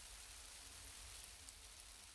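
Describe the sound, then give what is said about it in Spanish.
Rain falls on a shelter built from cardboard as a steady, faint, even hiss with no voices. “estamos sacando el cartón para construir una casa bajo la lluvia. Se está empapando. Decidimos hacer un techo para protegernos de la lluvia.”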